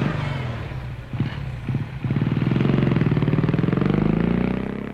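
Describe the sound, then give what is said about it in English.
A motorbike starts up after a few clattering knocks, then its engine settles into a loud, steady, buzzing run as the rider sets off. “He's dashing through the garden gate and straight for his motorbike. He's gone right past it, the twit. Oh, now he's come back to his bike. He's on. He's off. He's picked the bike up and he's on again.”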